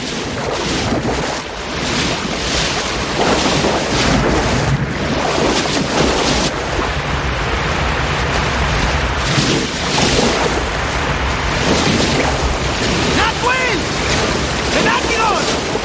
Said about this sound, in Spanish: Chingasguk está a merced de la corriente del río